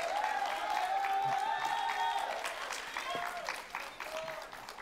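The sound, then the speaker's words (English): A church audience applauds and cheers in praise, steady clapping mixed with shouts and whoops. The sound is fairly faint overall and tapers slightly toward the end. “put your hands together and give the Lord praise. Come on, make some noise.”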